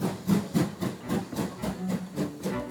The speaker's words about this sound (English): Within a few minutes, the visitors' train is on its way to London.